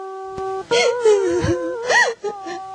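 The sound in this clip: A woman weeps with drawn-out, quavering wails whose pitch swoops up and down. The moans are loud and come alone, with short breaks between cries.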